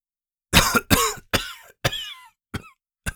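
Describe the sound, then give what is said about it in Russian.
Raspy coughing and throat clearing: six harsh bursts in quick succession, the first two the loudest and the later ones shorter and weaker, with no speech. “прохрипел Геральт, откашлившись”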